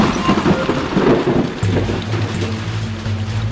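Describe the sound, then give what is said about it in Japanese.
A heavy hailstorm suddenly strikes at the foot of Mount Ibuki. Hard, dense pattering fills the air, and a deep, low rumble sets in partway through and continues under it. “突然天気が激変し、激しい雹が彼を襲ったのです。”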